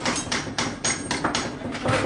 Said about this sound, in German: Hier wird an Arbeitstischen gehämmert und gefeilt.